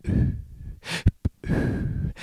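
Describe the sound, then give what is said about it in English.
A person's voice imitates short, fast bursts of breath: a few breathy huffs and gasps, with two sharp quick puffs between longer airy exhalations. No words are spoken. “my breaths are kind of coming short and fast, like little bursts. Not burping, but kind of like,”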